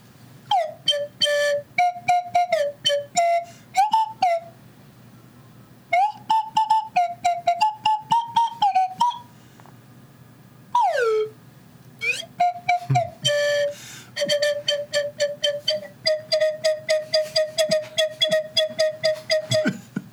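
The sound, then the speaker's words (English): Slide whistle solo: a long run of short, quick notes with swooping glides up and down in pitch, broken by brief pauses and played alone with no talk. “Very long slide whistle solo. Aren't all slide whistle solos longer than they should be?”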